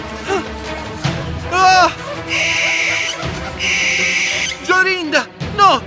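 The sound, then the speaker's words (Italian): A little owl cries out with harsh, high screeches, two of them breaking through spoken storytelling narration that continues around them. “Tutto ad un tratto una civetta dagli occhi ardenti le volò attorno 3 volte e per 3 volte gridò: ah!”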